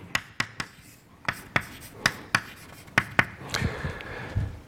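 Handwriting of equations during a lecture comes through as a series of crisp, sharp taps and strokes, about a dozen spaced irregularly, followed by softer scratching and rubbing.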